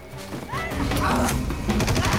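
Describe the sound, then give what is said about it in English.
Gunfire erupts during a chase through the jungle toward a boat as a man is shot in the leg: a few sharp, cracking shots over a loud, chaotic rush of noise. “They manage to get to a boat. Manito's not far behind when he gets shot in the leg.”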